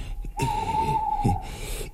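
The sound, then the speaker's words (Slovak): An owl gives a single long hoot, a steady mid-pitched tone held for about one and a half seconds over a faint low background rumble. “No a to iba sova húka.”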